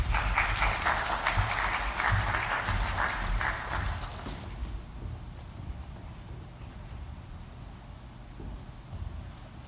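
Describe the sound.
An audience applauds at a church service to welcome its senior pastor. The steady, loud clapping runs for about four seconds, then drops to a quieter background rustle.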